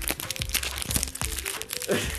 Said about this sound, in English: you wanna share some of that granola bar?